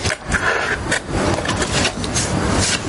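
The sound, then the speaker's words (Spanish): Cutting a photograph in a drama film scene: continuous rasping, papery scraping with small bursts, steady and fairly loud. “Ali no contesta y se pone a recortar una foto.”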